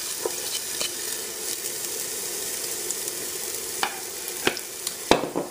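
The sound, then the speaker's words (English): Carrots fry in warm oil in a pan, with a steady, soft sizzling hiss and scattered crackles. Several sharp clicks from stirring stand out, especially toward the end. “we're going to go ahead and put our carrots in because I think our oil has warmed up”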